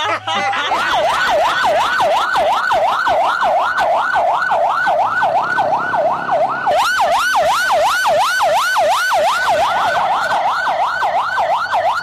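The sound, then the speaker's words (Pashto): An ambulance-style siren horn fitted on a private car wails loudly and continuously, its pitch sweeping up and down in fast, regular cycles throughout. “دا خو د امبولانس هارن دی، په شخصي ګاډو کې دا غیر قانوني دی.”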